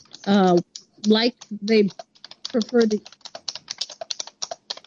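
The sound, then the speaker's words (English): Computer keyboard keys clack rapidly during an online town meeting, with many quick, sharp clicks in an uneven rhythm. A voice talks over the first half before the typing carries on alone. “Somebody's got a keyboard. Somebody clacking a keyboard.”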